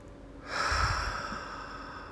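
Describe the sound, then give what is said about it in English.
A single deep, full breath drawn in and slowly released during a morning guided relaxation, soft and steady with no talk over it. “I invite you to take some nice, full, deep breaths.”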